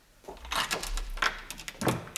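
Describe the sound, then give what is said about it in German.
A door opened on its security chain: a few soft rattling and scraping sounds from the latch and chain, quiet and brief, with a short sharp click at the very end. “So, mach auf, aber leg die Kette wieder vor.”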